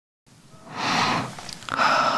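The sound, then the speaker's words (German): A deep breath in and out during a guided relaxation exercise: a soft, breathy rush of air that swells, briefly dips, then returns as a second steady airy phase, with no talking. “Öffne die Augen und atme mal tief durch.”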